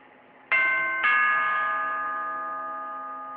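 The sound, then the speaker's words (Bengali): A doorbell chime at a house door sounds two notes about half a second apart, each a bright, clear tone that keeps ringing and slowly fades. “এতক্ষণ ধরে calling bell বাজাচ্ছি, খুলতে এত দেরি হলো যে?”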